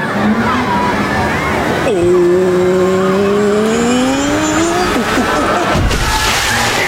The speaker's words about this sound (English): Hey, Kool-Aid man, can you drive?